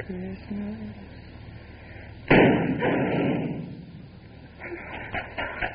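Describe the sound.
A single sharp gunshot cracks out near a car with its motor running, followed by a decaying wash of noise. Voices and tonal sounds come before and after it.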